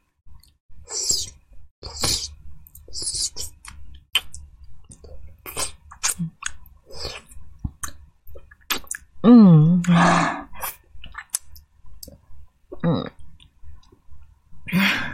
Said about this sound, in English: Now let me lick my feet clean.